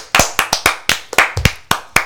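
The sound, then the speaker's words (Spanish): Hands clapping in applause during a children's program: a quick, uneven run of sharp, loud claps with brief gaps between them, no voices over them. “¡Aplausos, aplausos!”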